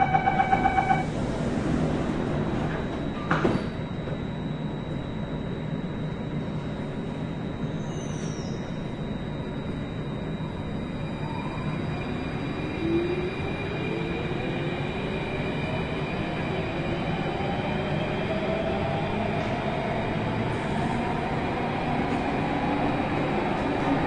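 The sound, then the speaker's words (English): Train doors closing and the train departing: chime tones and a thud at the start, then a steady rumble of wheels on rails with a motor whine rising in pitch as the train picks up speed. “Doors are closing.”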